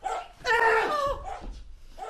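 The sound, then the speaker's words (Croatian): A dog barks a few times in a short burst, with one longer, harmonic bark standing out in the middle among smaller yelps. The barks are moderately loud and heard without talk. “Jebote, pas.”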